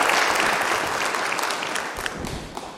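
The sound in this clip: Audience applause greets a speaker invited onto the stage, a dense, steady clatter of many clapping hands that eases off slightly toward the end.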